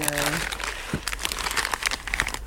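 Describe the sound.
A package of glass fragments is opened, giving crinkly, crackling rustles of wrapping that come in bursts, with a voice speaking over them.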